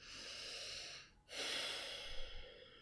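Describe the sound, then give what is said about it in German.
Deep breathing during a guided meditation: two long, airy breaths separated by a brief pause, soft and unhurried, with no speech over them. “Und dann atme noch mal tief ein.”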